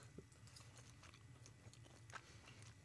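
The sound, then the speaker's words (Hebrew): Soft, moist chewing of flank steak cooked to about medium-well, close to the microphone, faint and irregular with small bites and squelches. “וואי, לא נעים לי לאכול לתוך המיקרופון, זה כזה... וואי, טעים ממש.”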